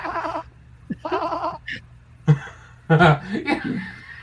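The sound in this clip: A person imitates a ram bleating with two long, quavering, nasal bleats. Louder chuckling and voiced bursts follow.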